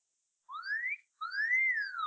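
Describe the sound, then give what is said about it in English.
A wolf whistle sounds as two separate whistled notes: a short upward swoop, a brief gap, then a longer note that rises and falls back down. Both are clear and alone, with no talk. “Did you hear that? I did. It was a wolf whistle.”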